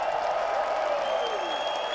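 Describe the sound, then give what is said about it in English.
An audience gives a round of applause for the people on stage. It comes as a steady, fairly quiet wash of clapping that runs without a break from start to finish. “how about a big round of applause, and from your heart to theirs, give it up for Ronnie and Robbie and Jason”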